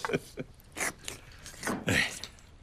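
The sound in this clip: Someone eats zhajiangmian noodles at a family meal, producing a few soft, wet chewing and mouth noises in short bursts.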